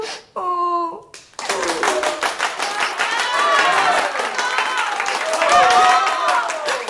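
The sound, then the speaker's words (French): Theatre audience applause: dense, steady clapping from many hands that keeps going loud for several seconds, with voices calling out over it. “Mais les spectateurs applaudirent,”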